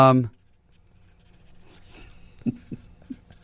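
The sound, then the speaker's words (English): A pen writes on the back of a business card, making faint scratchy strokes with a few sharper marks after a brief voice at the start. “I'm writing it down on the back of a business card. I'm gonna hand this to you face down before you look at it.”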